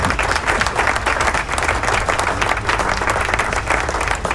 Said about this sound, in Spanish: ¡Hay aplauso!